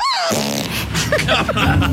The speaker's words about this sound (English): She forced a fart out on that one, didn't she?